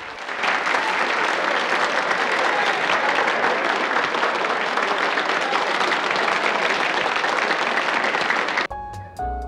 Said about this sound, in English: The audience give him a standing ovation.